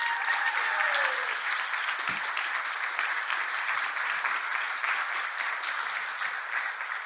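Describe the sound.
Sustained audience applause at a Westminster board gathering in Nashville, dense and even in loudness from start to finish, with no single voice standing out.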